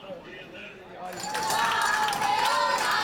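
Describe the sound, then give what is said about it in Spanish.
A crowd cheers and claps as the world champion rhythmic gymnastics team lands at an airport; the noise swells sharply after about a second and stays loud and steady, with talking over it. “Y así, recibidas entre vítores, aterrizaban las campeonas del mundo de gimnasia rítmica.”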